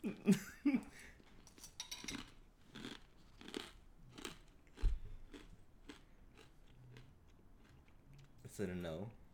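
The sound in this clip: Crunching and chewing of colorful, kid-shaped cereal that tastes like Fruit Loops: many rhythmic crisp crunches at a steady chewing pace, fairly faint, with brief vocal sounds at the start and end.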